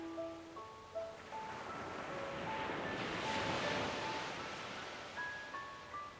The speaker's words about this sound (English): Enjoy the chill of the water, the power of the waves. Feel yourself trusting the ocean,